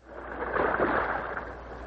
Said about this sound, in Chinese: 跟他的弟弟一同划船到湖中央